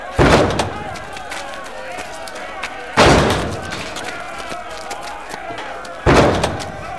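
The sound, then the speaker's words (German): Three heavy booming impacts of a battering ram, a wooden log with an iron head, striking a castle gate. They are evenly spaced about three seconds apart, each with a rumbling decay. “Einige haben Rammböcke. Damit wollen sie das Tor kaputt machen.”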